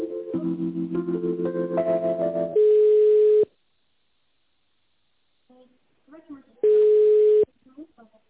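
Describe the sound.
Telephone tones while a call is transferred: a stepping sequence of layered beeps leads into a steady tone, then a pause, a brief faint murmur, and a second identical steady tone.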